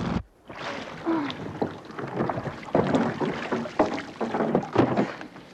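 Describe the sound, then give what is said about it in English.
A speedboat races toward a pontoon on open water, giving a loud, continuous rushing roar of engine and churning water with irregular surges and wind buffeting throughout. “The speedboat races towards the pontoon.”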